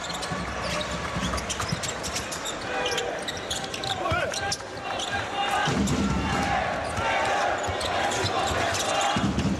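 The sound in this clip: A basketball being dribbled on a court during a game, bouncing in quick repeated thuds amid continuous crowd noise and voices.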